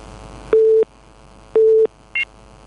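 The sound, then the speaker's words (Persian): Telephone tones after a dropped call: two steady mid-pitched bursts, each about a third of a second long and separated by a pause, then one brief higher beep. “آقای عبدالله از زابل تماس گرفتن، قطع شد.”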